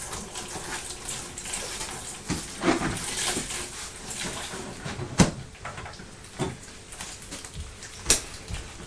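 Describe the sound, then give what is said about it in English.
Running tap water at a sink while a young child's hands are washed, a steady hiss broken by a few knocks and clunks. “Let's just wipe your hands, sweetheart. Wash hands. Wash hands. That's right, like we wash Dolly's hands with soap and a sponge.”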